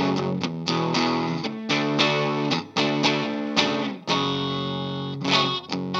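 Electric guitar played through effects to show off its pickups: a series of rhythmic strummed chords with a thick, slightly distorted, chorused tone. Some chords ring out while others are cut short, with no voices.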